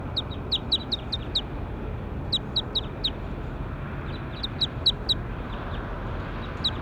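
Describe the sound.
Bird calls: short, high chirps come in quick bursts of several notes with gaps between them, over a steady low background noise.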